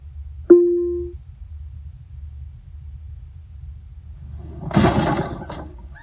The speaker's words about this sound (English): You smash the crate open and find a healing potion. You gain 3 experience points. You pick it up and stash it in your inventory. That was loud. I hope no one heard that.